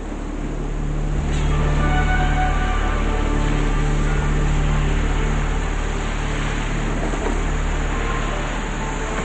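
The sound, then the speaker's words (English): An inflatable motorboat coming ashore on an empty beach, its engine a steady low droning hum with faint tonal overtones, holding at an even, fairly loud level throughout. “A man in an inflatable motorboat comes to shore on an empty beach.”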